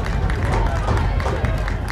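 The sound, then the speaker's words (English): A Raiders baseball crowd fires up after a play with a dense, steady roar of cheering voices and clapping that holds at an even, loud level throughout. “Well, that definitely has fired up the Raider crowd.”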